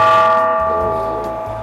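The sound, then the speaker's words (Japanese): Ringing of a dotaku, an ancient Japanese bronze bell: one struck, sustained metallic tone rich in layered overtones that hangs steadily and fades slowly over its length. “これは銅鐸の音ですね。”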